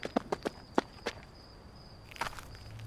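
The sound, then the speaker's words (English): Running footsteps cross a street in a quick series of sharp, distinct steps. After a short pause, a few more steps follow in a tight cluster. “He held onto my wrist as we ran across the intersecting street and round the corner, into the cul-de-sac.”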